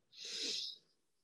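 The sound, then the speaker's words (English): A single slow inhale through the nose during a guided breathing exercise makes a soft, airy hiss that lasts under a second, quiet and alone. “Take three breaths and you can do it now. You breathe in through the nose”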